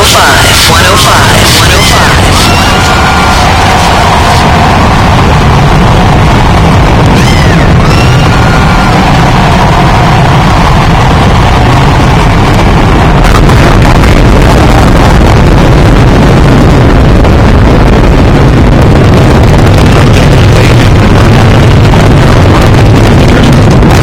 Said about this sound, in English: You'll see the go-ahead throttle up. And now, the rocket blasts off to